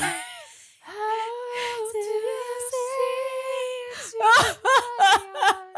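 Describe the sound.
A voice imitates sobbing and wailing: a long, sustained, wavering wail, then a run of short, choppy sobbing bursts and gasps toward the end.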